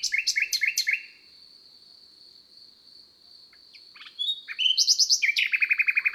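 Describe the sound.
A bird sings on its own in high, rapid chirping trills. One long, steady high note is held between bursts of quick repeated notes.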